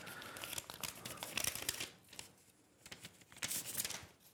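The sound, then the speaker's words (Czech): A paper envelope being torn open gives crisp tearing and crinkling sounds in irregular bursts, with a short pause midway, quiet and with no voices. “Máme tady tu obálku, já ji teď otevřu a přečtu ji.”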